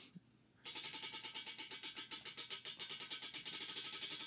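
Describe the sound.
A cranked prize wheel spins with rapid, regular ratcheting ticks. The clicking starts after a brief quiet moment and continues as a steady run of many even pulses to the end.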